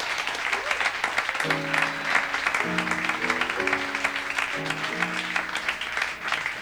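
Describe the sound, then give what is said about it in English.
Steady audience applause at a jazz concert with piano, drums and saxophone, dense clapping throughout, while sustained harmonic tones ring over it in stepped chords. “how about another round of applause for Rob Schneiderman on the piano, please?”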